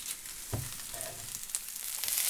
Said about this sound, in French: j'aime bien l'odeur de l'oignon à la cuisson